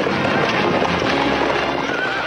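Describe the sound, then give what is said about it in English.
Horses gallop through black smoke past a burning wagon, their hooves making a dense, continuous loud clatter with no pauses or voices. “As they near, they gallop through a veil of black smoke.”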